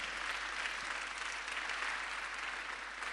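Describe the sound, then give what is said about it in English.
A church audience applauds to welcome guests, a fairly faint, even wash of many hands clapping that holds steady throughout. “Let's put our hand together as we welcome the Engstroms.”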